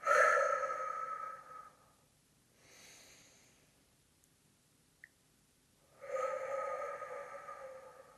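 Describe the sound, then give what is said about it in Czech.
Slow exhales during a breathing exercise: two long, breathy outbreaths about two seconds each, separated by several seconds of near quiet with only a soft, brief breath sound between them. “A výdech.”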